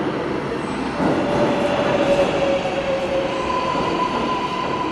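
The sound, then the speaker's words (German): A New York subway train arriving at a platform, with a loud, steady rumble of wheels on rails. Thin, high wheel squeals drift in and out over the rumble. “als ich die Bahn kommen hörte”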